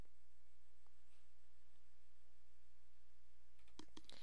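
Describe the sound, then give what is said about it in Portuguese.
Faint computer mouse clicks while stepping through an installation wizard for server administrative tools: a few sharp, quick clicks bunched near the end, after a long stretch of near-silent low hum. “no Deployment Wizard, vamos aqui clicar em Install Administrative Tools, Next.”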